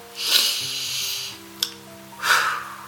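Deep, slow breathing: a long airy breath, a pause, then another drawn-out breath, each soft and hissy, with gentle sustained music tones underneath throughout.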